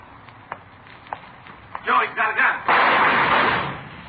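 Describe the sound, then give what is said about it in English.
Gunshots ring out in a radio drama shootout: a few sharp cracks, then louder, longer noisy bursts, with voices throughout. “I saw him pull a gun, thought sure he got you. Well, he didn't miss by much.”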